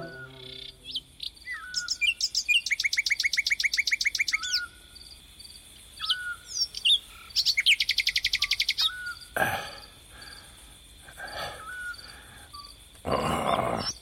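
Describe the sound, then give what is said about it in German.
Nightingale song: varied clear chirps and whistles, with two long, rapid, evenly repeated trill phrases standing out, alone without voices. “Diese verdammte Nachtigall. Ihr Gesang ist so süß, sagt Mama.”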